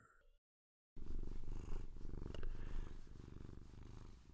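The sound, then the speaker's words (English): A contented female cat purring: a steady, low, rumbling purr with a fast pulsing texture that starts after a brief silence and continues evenly and fairly loud. “Do you hear that sound? That is the sound of our cat. She is very happy.”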